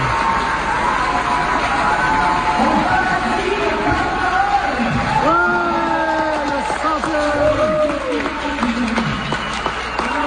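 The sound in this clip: Theatre audience cheering and applauding on an opening night: a continuous, loud wash of clapping and crowd noise, with a few voiced whoops and shouts rising out of it midway.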